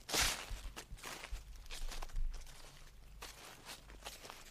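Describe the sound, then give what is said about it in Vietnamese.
Footsteps rustle and crunch over dry leaves outside in a steady run of many crackling steps. The steps are fairly loud and no voices are heard. “đột nhiên ở bên ngoài có tiếng loạt xà loạt xoạt, cứ như là ai đang dẫm lên lá khô mà đi.”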